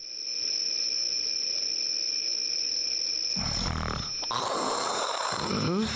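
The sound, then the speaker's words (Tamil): Rough, loud snoring from a sleeping king in a comedy skit: a steady tone and hiss give way after about three seconds to harsh, rasping bursts of breath noise. “குரட்டை சத்தம் கொடூரமாக இருக்கிறது மந்திரி. என்ன மன்னா இப்படி தூக்கத்தை கெடுக்கிறீர்களே மந்திரி?”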